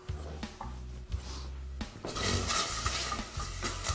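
A spoon stirs food in a pan, with irregular scraping and clinking strokes, and a sizzling hiss that swells louder in the second half.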